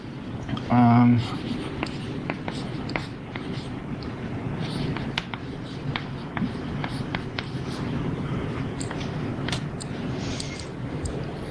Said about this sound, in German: Das schreibe ich jetzt einfach mal hin und dann können wir uns ja mal gemeinsam überlegen, wie dann diese Formel aussehen könnte.